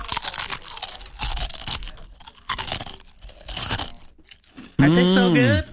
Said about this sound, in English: I'm going to eat some new chips. Hold on, folks.